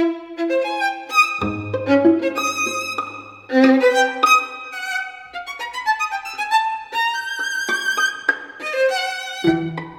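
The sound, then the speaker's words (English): Opening bars of a string quartet, with a violin line singing over plucked pizzicato from the other instruments. Clear bowed phrases alternate with crisp plucks, and the texture swells and thins across the passage. “So what you hear there is this line in the violin, and then the other instruments are pizzicatoing.”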